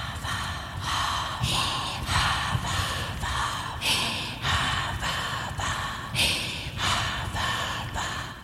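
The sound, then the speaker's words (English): A voice imitates a saw cutting snow blocks for an igloo, producing many rhythmic, breathy, rasping strokes back and forth at a steady pace, like hard snow being sawn. “the saw, mimicking quite closely the sounds of sawing through snow in the wintertime.”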